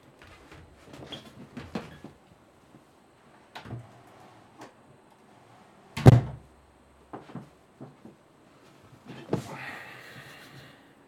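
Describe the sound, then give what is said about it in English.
Office door being closed: one solid, loud thunk stands out amid faint, scattered knocks and rustles before and after. “Well, I need to go and close my office door.”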